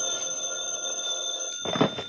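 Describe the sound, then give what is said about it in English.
A telephone ringing and waking a sleeper: a steady, bright, electronic tone held for about a second and a half, then cut off by a short rustling clatter as the receiver is picked up. “I'd fallen fast asleep. The phone woke me up.”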